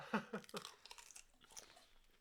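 Texas barbecue Pringles crisps are crunched and chewed, with a few loud crunchy bites at the start giving way to softer, quieter chewing.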